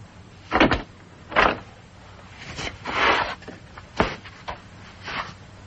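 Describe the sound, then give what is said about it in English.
A bathroom door is unlocked and opened, giving a series of dull clunks and rattles, roughly five distinct knocks spread unevenly over a steady low hiss. “I want you to unlock this door and come out of there.”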